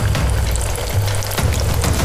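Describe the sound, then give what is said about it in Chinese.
Shrimp balls sizzle as they are stir-fried fast over high heat in a hot wok, in chili oil made from fried dried chilies and Sichuan peppercorns. A loud, constant crackling hiss carries a few brief stirring scrapes. “最后一步就是用之前炒辣椒花椒形成的胡辣油来炒，”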